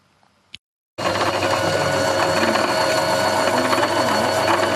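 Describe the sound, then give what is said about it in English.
Sewing machines whir loudly at a girls' sewing club in a small room of a two-story house in Vanuatu. After a faint click and a brief silence, a dense, steady mechanical hum starts abruptly and holds at an even, loud level. “In a small room inside a two-story house at Sumalava, sewing machines whir loudly with hopeful chatter.”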